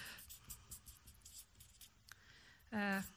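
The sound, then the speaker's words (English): Faint handwriting on a board by a teacher who is lecturing: soft, scratchy marker strokes come in short bursts, and a brief louder vocal sound follows at the end. “I can't speak and write at the same time.”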